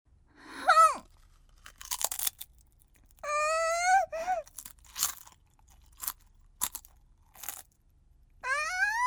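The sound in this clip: Crunchy, salted snack being chewed in short, crisp bursts, interleaved with voiced, pitch-gliding moans of enjoyment.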